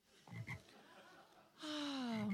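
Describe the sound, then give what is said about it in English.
Frog croaking: one loud, raspy, drawn-out croak with a slowly falling pitch that comes after a couple of faint brief sounds. “It's you. You're that talking frog.”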